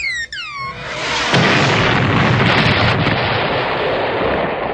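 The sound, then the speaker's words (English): A space temple explodes and goes down in flames. A few falling whistles lead into a loud, sustained rumbling roar that fills the rest of the moment. “Monitor, the space temple's going down in flames faster than a Bill Maher monologue at a Common Sense Festival.”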